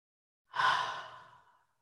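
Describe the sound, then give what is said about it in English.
One deep breath taken during a centering breath prayer: a soft, airy rush that swells quickly and then thins away over about a second, with no talking. “So take a deep breath in”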